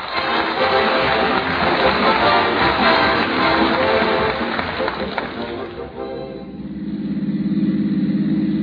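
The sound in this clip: A car engine runs as people drive to a studio, with voices talking over a broad, rumbling drone for most of the stretch before a steady, low engine hum continues alone.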